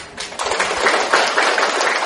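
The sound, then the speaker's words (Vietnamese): Applause from an audience at a spiritual teaching session: a sustained, dense patter of many hands clapping at a steady level, with no voices over it. “Vỗ tay là phải trí tuệ nghe chưa?”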